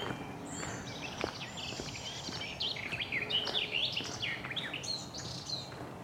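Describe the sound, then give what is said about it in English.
Garden warbler song in an overgrown woodland in the Brecon Beacons: a continuous stream of quick, bright, warbling chirps and trills, moderately loud and unbroken throughout. “possible garden warbler here. Yeah, it's a garden warbler.”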